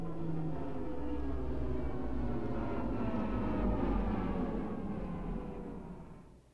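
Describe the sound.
A spaceship comes in for a shaky landing on a planet, a broad, rough engine roar that holds steady, swells slightly, then fades away at the end.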